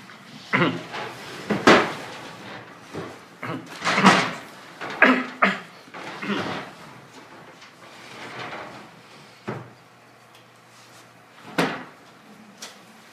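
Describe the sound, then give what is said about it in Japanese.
A window being closed: several faint sliding scrapes and knocks scattered over the stretch, a few sharper thumps among them, with quiet pauses between. “じゃあ窓を閉めていただけますか。”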